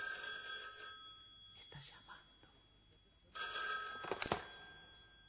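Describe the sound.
A telephone rings faintly in bursts of a steady, shrill tone, with a quieter gap between them. The scene is a Spanish-language drama.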